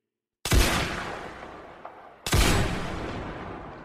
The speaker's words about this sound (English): A burst of fire cut them through.